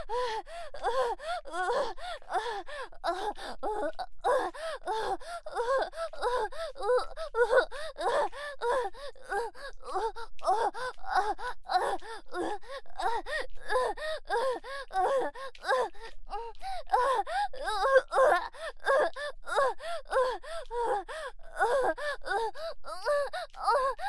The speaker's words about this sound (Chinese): 抖得好厉害，而且呼吸也开始急促。